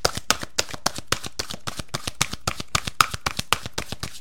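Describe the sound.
Oracle cards being shuffled and drawn: a long run of crisp, rapid riffling snaps in a quick, steady rhythm, loud and alone without talk.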